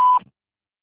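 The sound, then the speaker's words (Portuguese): A single voicemail beep marks the start of recording: one short, steady, mid-high electronic tone lasting about a fifth of a second, heard alone, then silence. “No momento, não posso atender. Deixe seu recado e retornarei assim que possível. Por favor, deixe sua mensagem após o sinal.”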